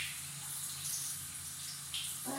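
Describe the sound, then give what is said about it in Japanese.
Tap water runs steadily while someone waits for it to turn hot, making a continuous, even hiss of flowing water at a moderate level with no talk over it. “早くお湯出ないかな、これ。あ、暖かくなってきました。”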